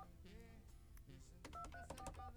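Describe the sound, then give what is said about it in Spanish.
Telephone keypad tones sound as a number is redialed: a quick run of several short, evenly spaced beeps toward the end, faint, over a low murmur of background sound. “¿Tengo que marcarlo completo otra vez?”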